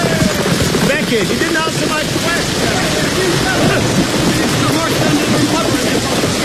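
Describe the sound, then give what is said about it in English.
Heavy rain storm pouring down in a steady, dense hiss that stays loud and unbroken throughout, with no separate drops standing out. “Oh! The rain is getting heavier, my lord.”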